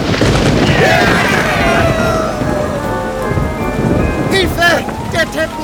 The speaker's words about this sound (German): Blitze erhellen den Himmel und einer davon schlägt direkt in den Teppich unserer Freunde ein.